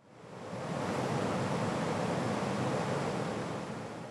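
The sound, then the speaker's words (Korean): Wind tunnel airflow during a missile flow-field measurement test: a broad, even rushing roar swells up over the first second, then holds loud and steady before easing slightly at the end. “미사일 기동시 유동장 측정 시험입니다. 네, 바람 올려주세요.”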